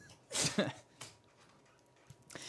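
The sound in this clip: A man imitates a small dog such as a corgi barking, giving a few short voiced yelps, the first two close together and louder, then fainter ones after brief pauses.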